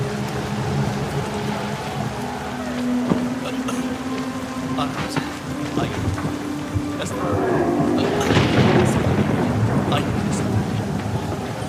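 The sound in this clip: Heavy rain pours down in a dense, steady roar with rumbles of thunder, growing louder and fuller in the second half.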